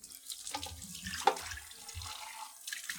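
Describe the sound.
Running water splashes as paintbrushes are washed between mural sections at the Juneau Arts and Culture Center, a steady wet trickle with a few soft clunks and one brief sharper knock partway through.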